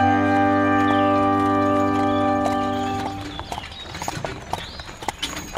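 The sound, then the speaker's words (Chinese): Steady clip-clop of hooves as a horse-drawn royal carriage passes through a village, rhythmic hoof strikes following a sustained musical tone at the start. “国王的马车经过了村庄，不断地继续往前移动。”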